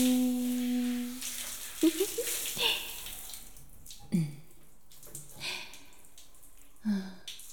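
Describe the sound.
Hot water runs from a tap as a mother rinses a child's hair before shampooing, a steady hiss that stops after a few seconds while a woman talks over it.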